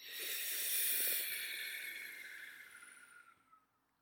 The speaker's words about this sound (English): Breathe in through the mouth. Exhale through the nose. Two more. In through the mouth.